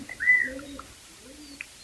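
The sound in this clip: Two pigeons give soft, low cooing calls in a few murmuring phrases. The calls are faint, with a light chirp mixed in, and no one talks.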